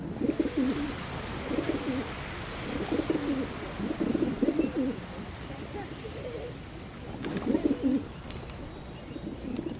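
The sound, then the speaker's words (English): Pigeons coo during a courtship display of bowing and strutting. Low, throaty, rolling coos come in repeated bouts separated by short pauses, at a moderate level over a faint background hiss. “Combined with distinctive bowing and strutting, the cooing cacophony draws in potential mates while intimidating other males.”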